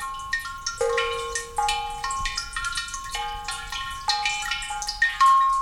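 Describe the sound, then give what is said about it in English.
Water drips into a clay suikinkutsu, a cistern-like water harp cave that catches overflow from a stone drinking basin. Many quiet, bell-like plinks arrive in an irregular rhythm, each leaving a lingering, resonant ringing tone. “These tinkling melodies are created by Asui Kinkutz, which literally translates as water harp cave. This clay cistern-like device is designed to catch the overflow of water from stone drinking basins”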